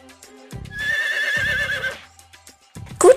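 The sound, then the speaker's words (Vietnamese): A loud whinny comes from the horned horse that leads the herd: a long, wavering, high neigh over low snorting pulses, ending in a sharp, higher cry. “Ngựa sừng đầu đàn.”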